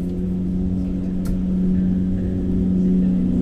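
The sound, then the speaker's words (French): Steady, loud low engine drone of a slow light aircraft throttled up to full power for takeoff, even and humming, swelling slightly toward the end. “Ok, donc là, on va mettre pleine puissance. Hein. Ça s'appelle plus des gaz parce qu'il n'y a plus de gaz. C'est la poignée qui se trouve main gauche. Donc, on met pleine puissance.”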